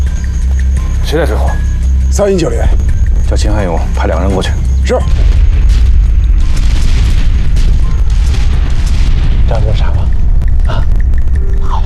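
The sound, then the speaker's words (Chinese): Artillery bombardment opening an assault, heard as a continuous deep booming rumble with heavy low thuds throughout, while voices talk over it in the first half. “炮击才刚刚开始，师弟这回动了老本，三个中原，60分钟打垮”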